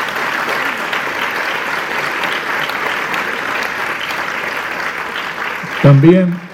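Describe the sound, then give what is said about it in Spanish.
Steady crowd applause for a mime act during a show, a dense even wash of clapping that holds throughout, with a voice breaking in just before the end. “Fue muy linda la aparición con la mística cuando dijeron el poema ¿Por qué cantamos? También un aplauso para esa mística, ¿eh?”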